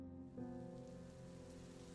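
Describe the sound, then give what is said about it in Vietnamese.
Heavy night rain falls in a dense, steady patter that stays at an even level for the whole two seconds, with no voices. “Đêm nay trời bất ngờ đổ cơn mưa.”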